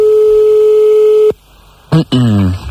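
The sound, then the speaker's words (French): Telephone ringing on an outgoing call: one long steady ringback tone that cuts off, a short silence, then a voice answers. “nous allons appeler des messieurs et madame Lacrotte. Alors, on y va, c'est parti.”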